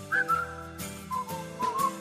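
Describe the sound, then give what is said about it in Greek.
A person whistling a short tune, clear bright notes that step up and down in pitch in a lilting rhythm, with no talking. “Αυτό θέλω λοιπόν και εμείς, να μπορέσουμε να σφυρίξουμε θετικά.”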